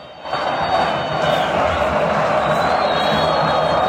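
Argentine football fans cheer during a penalty shootout against Paraguay. The noise swells up quickly at the start, then holds as a loud, steady crowd roar.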